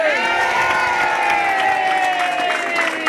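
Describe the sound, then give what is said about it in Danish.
Studio audience cheering to vote for a favourite act in a contest: a steady, loud blend of shouting and whooping voices with sustained tones that holds at an even level throughout. “Jeg synes, der bliver jublet godt igennem.”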